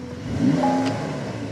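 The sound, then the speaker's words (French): Flat-six car engine revving in a short burst: a mid-pitched mechanical drone whose tone climbs briefly, then holds steady and settles into an even hum. “si, ça, c'est un flat 6. Ça, c'est un son de flat 6.”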